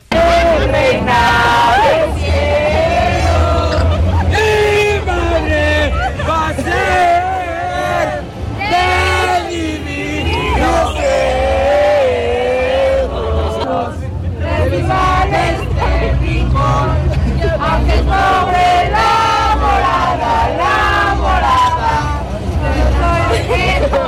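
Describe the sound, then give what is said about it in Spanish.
Mexican football fans leave a fan fest in packed, slow-moving lines. A loud, continuous mass of voices chants and sings together throughout, over a low rumble. “el humor mexicano pasó lista de presente en las apretadas filas que avanzaban en las salidas de este FIFA Fan Fest, adelantando algunos meses las letanías para pedir posada. Escuchemos.”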